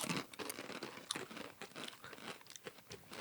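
Japanese jack-o'-lantern rings, a ring-shaped snack, crunch as they are chewed: many quiet, crisp, irregular crunches follow one another with no talk.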